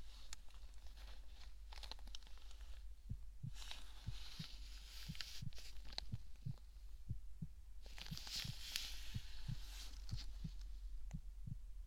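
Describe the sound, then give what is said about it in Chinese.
A human heartbeat thumps in a steady, regular rhythm, its soft low pulses repeating about once a second over a constant low hum and faint rustling, with no talking. “心跳也没什么问题，”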